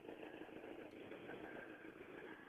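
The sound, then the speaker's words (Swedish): A car engine with an exhaust manifold leak, heard as a faint, steady engine drone with a rough, raspy mid-range texture and no talk. “Här kommer det någon som har lite avgasgrenrörsläcka.”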